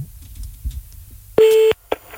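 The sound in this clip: A steady, loud telephone tone sounds once for about a third of a second as a call is placed to a man at home who may be watching a match. A couple of short clicks follow.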